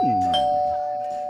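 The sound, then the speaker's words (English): A Ring video doorbell chimes: a clear electronic ding rings out at a steady pitch and slowly fades over about a second. “Our show today brought to you by the Ring Doorbell System.”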